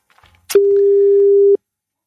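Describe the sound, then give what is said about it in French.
A telephone line gives a single long ringback beep, a steady mid-pitched tone lasting about a second, while someone is being called. Near-silence comes before and after it. “Donc Seb, tu as le numéro, tu composes. Eh ben écoutez, allez, nous appelons Francis Perrin.”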